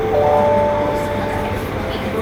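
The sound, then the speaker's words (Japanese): A train arriving at a station platform: a steady rumble with a sustained tonal whine running across it, fairly loud and even throughout. “3番線に列車が到着いたします。ご注意ください。”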